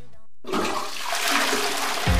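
A toilet flushes with a loud rushing gush of water that swirls steadily for about two seconds.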